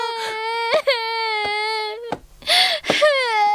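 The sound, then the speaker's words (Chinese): A girl cries in drawn-out, tonal wails broken by short gasping breaths, loud and alone with no other sounds around. “好了，我的乖女儿，别哭了。”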